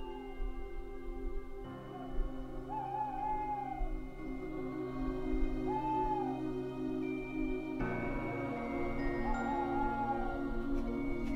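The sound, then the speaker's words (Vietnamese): A stray owl separated from its flock hoots faintly in the distance, giving a few drawn-out, mournful calls that rise and fall, spaced well apart over a quiet, steady low background hum. “Đâu đó ngoài kia, văng vẳng tiếng con cú lạc đàn kêu lên thê thiết.”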